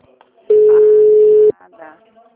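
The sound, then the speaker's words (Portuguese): A telephone line tone while a call is transferred: one steady, fairly loud beep lasting about a second, with faint voice sounds just before and after it. “Estamos transferindo sua ligação.”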